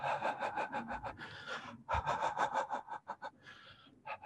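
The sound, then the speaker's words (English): Breath huffs out in quick, rhythmic pulses driven by the diaphragm, exaggerated for demonstration: a rapid run of short, faint puffs, a brief pause, then another run. “So we're getting that breath really, really huffing out because of the movement of the diaphragm.”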